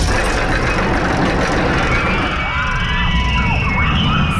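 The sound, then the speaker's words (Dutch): A roller coaster at Appelscha racing past, with a loud, continuous rumbling roar. Whining, screeching tones sweep through the middle of the roar. “Wat een heerlijk geluid is dit. Het is het geluid van de Appelscha achtbaan.”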